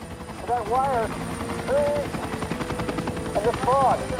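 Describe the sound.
An FBI helicopter flies at about 150 metres along a highway in the dark. Its rotor thumps in a rapid, regular pulse throughout, while a few short bursts of voices break in over the steady chop.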